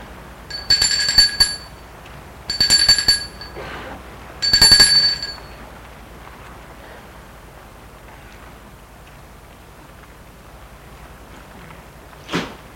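A doorbell rings three times in short, bright metallic bursts at a small house at the back of a courtyard. A long quiet stretch follows the rings.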